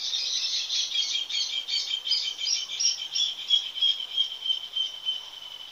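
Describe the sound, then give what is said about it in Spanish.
Rapid, high trilling chatter of a sociable, nest-building bird of the Río de la Plata region, continuous with a pulsing loudness, easing slightly toward the end. “Es un ave sociable que habita cerca de las personas y es conocido como un animal laborioso debido al potente nido que construye.”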